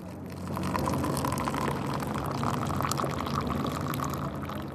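Fresh tea water is poured into a cup inside a protest tent camp on a sidewalk, a steady trickling splash that runs unbroken for several seconds.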